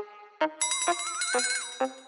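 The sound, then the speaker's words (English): A bell rings in a few bright, sharp strikes. Each strike leaves a sustained metallic ring that overlaps the next, with a wavering tone heard in the middle and no voices. “You know, ring that bell every so often.”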